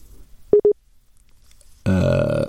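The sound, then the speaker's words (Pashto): Two quick mid-pitched beeps of a telephone busy tone after a call line drops, short and clipped, followed by a loud buzzy harmonic sound that holds to the end. “ټلیفون لیکه قطع شو.”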